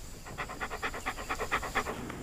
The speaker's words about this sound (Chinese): 好狗。